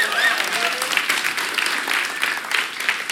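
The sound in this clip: Audience applause during a church service, a dense, steady wash of many hands clapping that holds at an even level throughout without pause.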